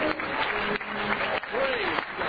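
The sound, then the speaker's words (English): An audience claps hands in praise during a worship service, making a dense, steady wash of applause while a voice calls out over it. “can we give the Lord a great big hand clap of praise?”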